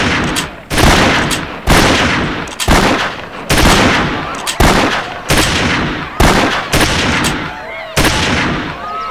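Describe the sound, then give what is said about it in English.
Gunshots ring out at a target-shooting contest with targets 300 yards away, many loud, sharp cracks fired one at a time at a steady pace, each with a short ringing tail. “The targets were moved, then moved again. They were now 300 yards away. Commence firing!”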